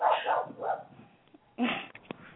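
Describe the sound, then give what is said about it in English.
A dog barks a few times: a quick run of sharp yips and barks, a lull, then one louder bark, all fairly faint. “And there's the Filipino's dog.”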